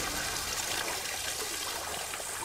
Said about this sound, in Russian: Она с головой окунается в воду.